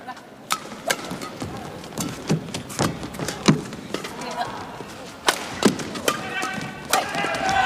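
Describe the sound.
Table tennis ball strikes during a serve and return in a match: many sharp, light clicks and taps in a quick, uneven rally rhythm over steady background noise.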